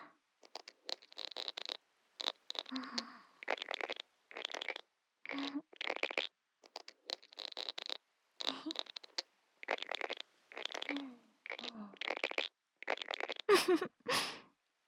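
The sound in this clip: Scratchy rasping strokes of two seashells with jagged, ridged surfaces being rubbed together, a steady series of many short bursts separated by brief gaps, heard alone without talk.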